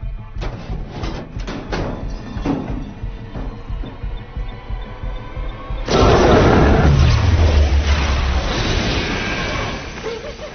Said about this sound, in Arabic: هل رأيت هذا من قبل؟ قنبلة الإغماء ستعطل كل الأجهزة الإلكترونية.